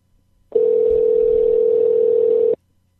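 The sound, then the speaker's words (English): Steady telephone dial tone heard while a call is being redialed, one unbroken mid-pitched tone lasting about two seconds, loud and alone, starting and stopping abruptly. “Let me dial back.”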